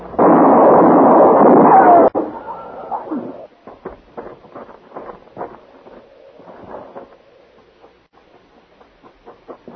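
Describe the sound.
A gunshot in a western drama, a loud sustained blast lasting about two seconds that cuts off sharply, followed by scattered quieter clatter and rustling.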